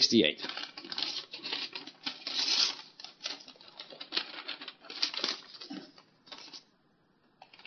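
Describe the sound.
Paper rustles and crinkles as an envelope is opened during a ceremony, with many quick crackling bursts and some tearing under a person's talking before the rustling trails off.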